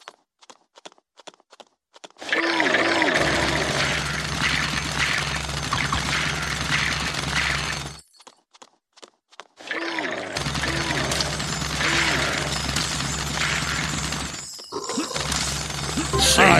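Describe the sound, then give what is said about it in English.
Machine-gun fire from the Alex Jones video game comes in long, dense bursts of rapid, loud, crackling shots, broken by a brief pause between them. “Ready, go, save the babies! Machine gun.”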